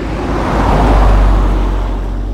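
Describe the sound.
Cars driving on a busy street in the early morning, heard as a continuous loud, low traffic rumble that swells slightly midway, with no voices.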